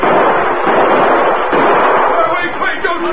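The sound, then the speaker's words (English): Gunshots ring out as masked outlaws storm a bank in a radio drama robbery scene: loud, dense bursts of gunfire pile into a continuous clamour, with voices in the mix. “half a dozen men whose faces were concealed by bandanas rushed into the bank and started shooting.”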